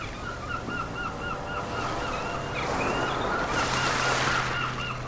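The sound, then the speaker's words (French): Seagull calls used as a sound effect: repeated short, high cries run throughout over a wash of sea waves. The surf noise swells and grows louder in the second half. “Je crois que je vais ajouter un peu plus de mouettes.”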